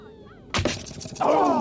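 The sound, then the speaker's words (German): A thrown lance striking a shield in a battle between Trojan and Greek armies: one sudden, loud, sharp impact, followed by a sustained noisy clatter that swells louder toward the end. “Und da, Paris schleudert die Lanze.”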